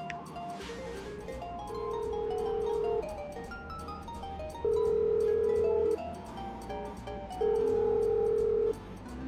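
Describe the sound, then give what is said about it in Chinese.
Ringback tone of an unanswered mobile phone call: three long, steady mid-pitched tones at even intervals, each lasting about a second, over a soft continuous background. “他走到客厅通往屋后花园的廊下，拿出包里手机给顾菲菲拨了个电话。”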